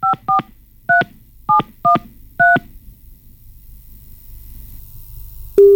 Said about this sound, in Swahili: Simu yake ndo inaitana.